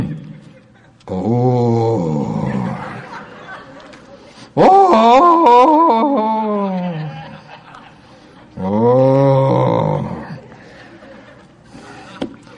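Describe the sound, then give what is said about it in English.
Deep, drawn-out vocal groaning in intercessional prayer, delivered as three long moaning stretches with wavering pitch. The middle groan is the loudest. “Yes, Lord, I am now going to go into deep intercessional groaning.”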